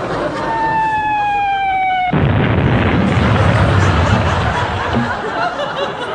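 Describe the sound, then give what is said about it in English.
A shell fired by the Home Fleet explodes: a whistling tone with overtones glides slightly downward, then a sudden loud blast breaks in and a dense rumbling roar carries on to the end. “Heavens to Betsy, what do they load this thing with? I don't think it was the starting pistol, sir. I think it was a rather loud present from the Home Fleet. They must have thought you were firing at them,”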